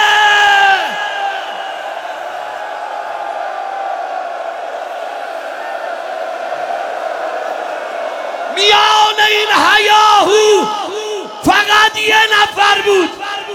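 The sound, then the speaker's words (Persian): A crowd shouts the name Hussein in a long, sustained, chant-like cry. After a brief drop, a burst of several loud, overlapping shouts follows. “داد بزن حسین.”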